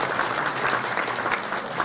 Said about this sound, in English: I think it's worth a round of applause for 35 years of hard work